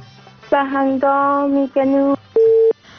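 A telephone busy tone sounds after a call drops: four loud, steady buzzing beeps with short gaps between them. The last beep is shorter and thinner in tone than the first three.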